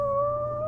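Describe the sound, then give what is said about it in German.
A wolf howl sounds from inside a bin: one brief, sustained tonal cry at a fairly steady pitch, with a clear higher harmonic over a low murmur. “Hast du das gehört? Da ist ein Wolf in der Tonne.”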